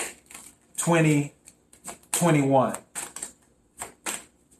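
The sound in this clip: Tarot cards being shuffled to draw a single card: two long, loud papery rattling bursts, each followed by a scatter of shorter, softer flicks and taps.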